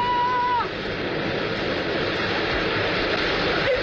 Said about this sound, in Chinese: 洪水来了，赶快过河！